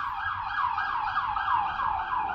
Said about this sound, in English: Two police cars are actually cruising around. They're down by the little beach that's down there.